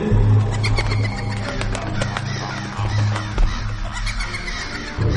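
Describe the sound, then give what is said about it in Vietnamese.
A flock of black crows swoops down from tree branches to the ground, with many overlapping harsh caws. They sound amid dense, noisy commotion over a low, steady drone. “Một đàn quạ đen lao từ trên những nhánh cây xuống đất. Chúng nó kêu quang quát”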